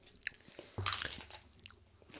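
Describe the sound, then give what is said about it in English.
Crunchy bites of chips dipped in salsa, a few crisp, crackly crunches and chewing sounds with no talk over them. “The salsa chips are a yes. But I think together it's still not that great.”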